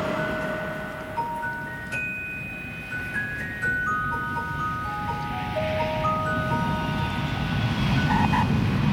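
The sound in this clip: An airplane flies with a steady, broad engine roar that slowly grows louder, while thin, sustained high tones sit above it.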